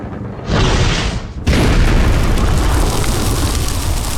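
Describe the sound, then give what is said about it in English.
A scorching, fiery blast explosion from a magical inferno unleashed by a pirate captain: a dense roaring burst opens, dips briefly, then a second, louder blast surges and holds as a thick, steady roar to the end. “And a scorching blast brings us from the captain of 2 days ago to the captain of 200 years ago, as Redbeard's fiery inferno envelops Tarik in front of you.”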